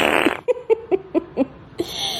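A sputtering fart, a quick, uneven run of about half a dozen short tonal pulses, with a brief hiss before and after.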